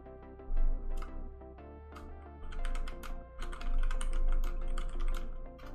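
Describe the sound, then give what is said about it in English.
Typing on a computer keyboard: many quick, uneven key clicks come in bursts separated by short pauses, fairly faint and with no talking. “Did you type something?”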